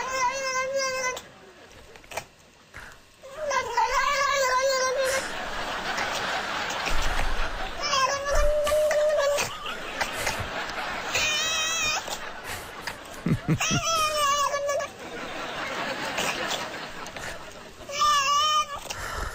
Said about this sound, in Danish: Kommer kat nummer to.